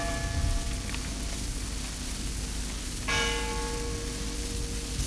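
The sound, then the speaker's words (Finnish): Funeral church bells tolling: a couple of resonant bell strikes with long ringing decays over a constant rain-like hiss. “Kun hautajaiskellojen ääni sitten kantautui mökkiini”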